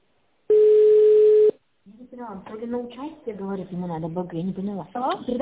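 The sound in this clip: A telephone line tone plays as a call is transferred to an operator: one steady, mid-pitched beep lasting about a second, followed by a short silence and then people talking on the line.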